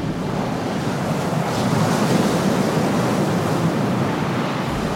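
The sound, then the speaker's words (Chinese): A storm at sea, with strong wind and waves around a cargo ship carrying black tea home to England. The rushing roar of wind and surf is loud and steady throughout, with no break. “正航行在回去英国的海面上，没想到却不幸遇到了强烈的风暴啊！”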